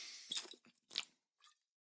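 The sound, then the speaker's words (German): Soft mouth and swallowing noises from taking a small sip of a drink: a few short, wet, crackly bursts in an uneven rhythm, quiet and with no talk. “Moment, kleinen Schluck.”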